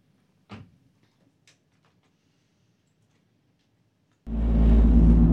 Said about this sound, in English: That's the sound of a car crash being prevented by a rumble strip.